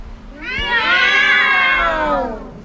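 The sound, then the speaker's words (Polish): A loud, drawn-out meow is voiced in imitation of a cat, as an audience was asked to give one. It is a single sustained call whose pitch arches up and then eases down. “Czy osoby, które do nas przybyły, miłośnicy kociej szajki, mogą zrobić teraz takie głośne miau?”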